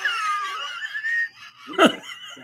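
A dog's wheezy breathing: a drawn-out, whistling tonal wheeze, then a brief gap and a short, harsher snort-like burst near the end.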